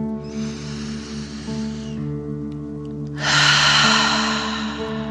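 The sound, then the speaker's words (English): A deep 'dragon breath' in and out, breathing out through the mouth as if breathing fire: a soft, drawn-out inhale, then after a brief pause a louder, hissing exhale, both over steady sustained background tones. “pretending you are breathing fire. Ready? Deep dragon breath in and out.”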